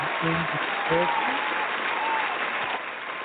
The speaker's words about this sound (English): We'll give them all an applause.